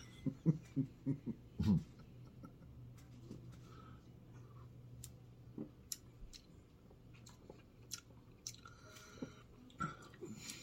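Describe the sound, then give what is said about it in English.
Wet gulping and swallowing as a person takes a drink, a quick run of soft mouth sounds in the first two seconds, then only faint scattered clicks over a low steady hum. “I'm gonna reach around and have a drink.”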